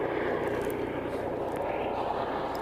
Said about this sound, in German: Hubschrauber. Ich sehe ihn ja sogar. Dafür, dass ich ihn sehe, ist aber verdammt leise.